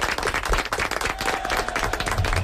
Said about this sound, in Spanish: Lo habéis hecho muy bien, ¿eh? Vale, un aplaudimiento, un aplaudimiento.